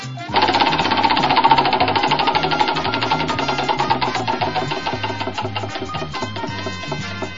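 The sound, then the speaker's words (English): A prize wheel spins with a rapid, rhythmic ticking clatter that runs for several seconds, loud at first and gradually easing as it slows. “We'll spin the wheel to see what show will it reveal.”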